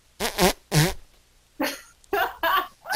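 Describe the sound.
A voice imitates a fart with two loud, blubbery, buzzing bursts in quick succession, followed by a few further short voiced sounds.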